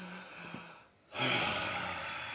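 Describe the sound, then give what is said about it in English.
A person imitates a pet's big, deep sigh: a soft intake of breath, a brief hush, then a longer, louder breathy exhale that trails off. “He does actually sigh, doesn't he? Like, he takes that big, deep breath.”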